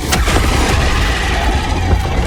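Explosion from a stratagem strike in a video game where players fight bugs: a dense, loud wall of rumbling blasts and crackle that runs the whole time with no pause, heavy in the low end.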